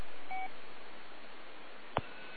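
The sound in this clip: A short electronic beep sounds over faint static hiss on an amateur radio net, followed later by a sharp click.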